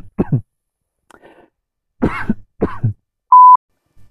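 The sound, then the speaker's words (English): A short coughing fit: a few harsh, loud coughs in separate bursts with gaps between them, followed by a brief steady electronic beep. “sorry about that, little cough attack”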